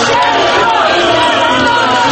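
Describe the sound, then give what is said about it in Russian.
A large crowd of about 2,000 supporters gathered outside the Central Election Commission building greets the head of state, with loud, dense cheering and crowd voices that stay steady throughout. “Аплодисментами у здания ЦИКа главу государства встречали около 2000 его сторонников.”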